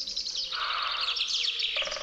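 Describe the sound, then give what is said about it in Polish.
Chaffinch song, a bright, rapid run of high chirping notes delivered in a dense, continuous phrase, with other tweeting birdsong layered throughout. “Wtórują mu dzięcioły i zięba ze swoją zawadiacką zwrotką.”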